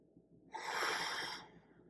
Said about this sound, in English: they do 6 deep breaths. They go like this. They hold it in.